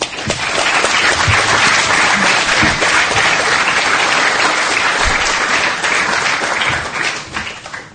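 Audience applause welcomes a lecturer at LSE, a dense, loud, sustained clapping that holds steady, then thins and fades in the final second.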